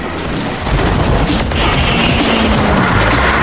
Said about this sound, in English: After taking out another barrier, the driver changes gear and smashes the battery ram into a wall.